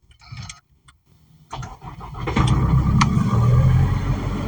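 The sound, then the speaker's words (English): An Isuzu D-Max pickup's engine starts by push button on a freezing cold day: a few faint clicks, a brief cranking burst, then the engine catches and settles into a steady, beefy low hum. “you put your foot on the brake and there is a button.”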